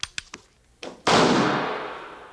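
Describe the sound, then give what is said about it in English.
A rifle shot at a backwoods shooting contest cracks out as one loud, sharp blast with a long fading tail, coming after a few faint clicks. “This one's dead center, too. You'll have to fire another round.”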